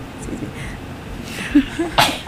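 A sharp sneeze from a person irritated by tree pollen bursts out near the end, rising briefly above a low background murmur.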